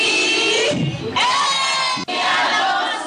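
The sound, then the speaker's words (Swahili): Women ululating and cheering with joy after receiving land titles in their own names: loud, high trilling voices layered into a sustained crowd roar, broken by one brief sharp drop before it surges back. “Ni furaha, vigelegele na nyuso zenye matumaini.”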